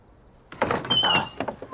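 A door being opened: after a brief quiet, a short scraping, rattling slide lasting about a second, with no voices.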